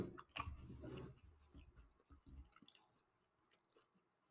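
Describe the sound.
Melted food being chewed right up against the microphone, wet squishy smacking that is loudest at first and then fades into quieter, scattered clicks.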